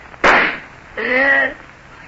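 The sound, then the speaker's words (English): A single loud, sharp pistol gunshot bursts out near the start, followed by a short vocal cry a moment later. “he shot himself.”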